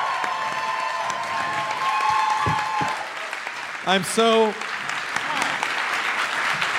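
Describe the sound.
Steady crowd applause greeting a comedian as he walks onto the stage, a sustained wash of clapping with a brief shouted cheer from a voice rising above it midway.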